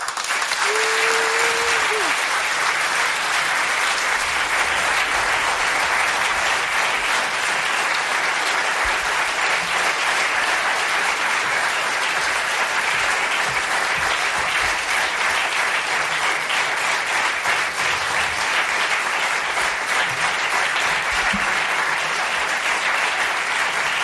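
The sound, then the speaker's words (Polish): An audience applauds a female performer after a music performance. The clapping is dense, steady and sustained for the whole stretch, with no break. “nagradzanie artystki oklaskami, a to dla artystów jest zawsze największa nagroda”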